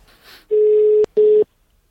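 A telephone call being placed: two steady, mid-pitched tone bursts, the first longer than the second, separated by a brief click, after a faint stretch of line noise.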